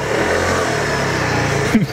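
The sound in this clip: Engine of a white Vespa scooter running at a steady, mid-pitched buzzing drone with a low rumble, holding even loudness, then a brief squeaky clunk near the end.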